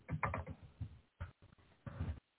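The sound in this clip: Computer keyboard typing comes through faint and muffled as clustered bursts of quick plastic key clacks, broken by a few brief pauses.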